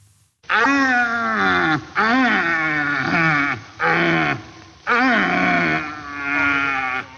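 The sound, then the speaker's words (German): A red deer stag roars during the mating season: several long, deep, groaning calls rich in harmonics come one after another with short gaps, loud and with no talk. “Nein, es ist nicht dein Nachbar, es ist ein Rothirsch. Die haben nämlich gerade Paarungszeit und es ist wirklich so, also die brüllen sich tagelang die Lunge aus dem Leib”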